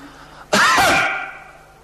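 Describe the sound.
A single abrupt cough, an old man's signalling cough, voiced by a storyteller imitating it: one loud, harsh burst with a ringing tail that fades over about a second.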